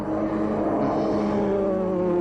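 The engine of an enemy aircraft in flight drones steadily, a continuous layered hum with a slightly wavering tone at moderate loudness and no talk.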